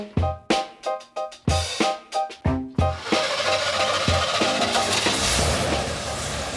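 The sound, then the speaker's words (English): A 1979 GMC RV engine starting up: a rapid train of about ten rhythmic cranking pulses from the starter, then the engine catches and settles into a steady, loud, rumbling run. “I'm Mookie, and that's the sound of my old 1979 GMC RV, affectionately named Lily, firing up to take me deep into the Great Canadian Shield.”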